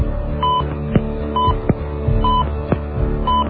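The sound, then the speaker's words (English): Touch-tone keypad beeps as a voicemail box number is dialed: four short, evenly spaced tones over a steady low hum, with a few sharp clicks between them. “Enter the box number you want to leave a message for, followed by the pound sign.”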